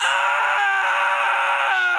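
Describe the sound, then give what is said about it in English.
A person screams: one loud, sustained cry held at a steady high pitch for about two seconds without a break. “Oh, I just screamed.”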